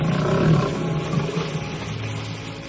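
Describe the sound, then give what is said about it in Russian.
Lions roar from across a bay, far off and no longer coming closer. The sound is a rough, low, rumbling mass, strongest at the start and then trailing into a sustained, grumbling drone. “Страшный рев доносился с той стороны залива, но уже не приближался.”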